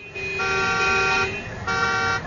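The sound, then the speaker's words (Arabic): Car horns honk in a traffic jam with two loud, brassy blasts. The first lasts about a second and the second is shorter, with a brief gap between them. “ادي من هنا زحمة، هروح هنا زحمة.”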